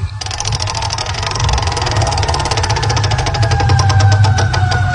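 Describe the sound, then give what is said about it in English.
A prize wheel spun during a game segment gives off fast, steady ticking clicks that run without a break over a low rumble. “Let me get the wheel back out. And are you ready, Miss Francis? I'm ready. Let's do it. All right, let's get a little lube on there. And go!”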